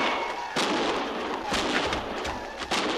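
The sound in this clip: Gunfire from soldiers' guns at long range in a canyon, a few sharp cracks spaced irregularly over a steady rushing background noise.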